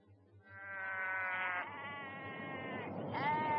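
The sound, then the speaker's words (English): Lambs bleating, a few long, wavering, high-pitched bleats that run almost back to back and stay fairly loud throughout. “Look at the lambs.”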